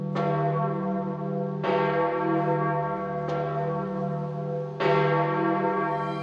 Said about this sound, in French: au pape Wojtyla tandis que sonne le glas